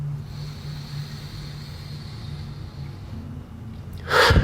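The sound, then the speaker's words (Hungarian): A forceful, fast exhale through the mouth from a breathing exercise bursts out at the end as a short, loud breathy rush. It follows a quiet stretch of low steady hum. “3 másodpercen keresztül az orrodon beszívod a levegőt, majd pedig a szádon keresztül olyan gyorsan kifújod a levegőt, amilyen gyorsan csak tudod. Mutatom, hogy néz ki a gyakorlatban.”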